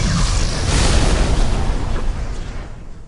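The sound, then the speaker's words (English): An explosion erupts as a loud, broad rumbling blast that stays dense for a moment, then slowly dies away over about three seconds. “Before it fell, the world exploded around them.”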